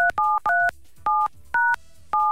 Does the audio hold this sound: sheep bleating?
no

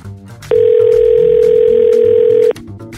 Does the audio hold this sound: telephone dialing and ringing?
yes

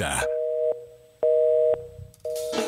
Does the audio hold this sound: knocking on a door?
no

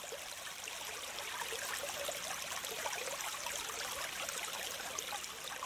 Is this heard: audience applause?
no

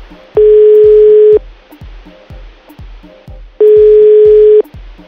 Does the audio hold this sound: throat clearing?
no

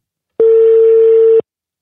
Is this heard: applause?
no

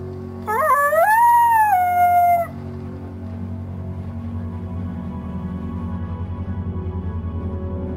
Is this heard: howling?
yes

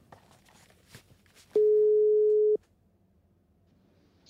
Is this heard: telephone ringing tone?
yes

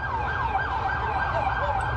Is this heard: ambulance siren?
yes

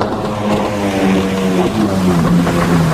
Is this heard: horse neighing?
no

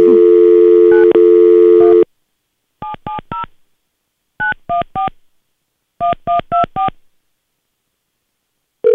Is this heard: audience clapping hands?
no

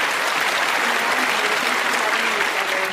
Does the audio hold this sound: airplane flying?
no

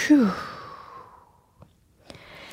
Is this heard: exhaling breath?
yes

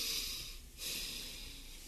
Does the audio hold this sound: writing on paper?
no

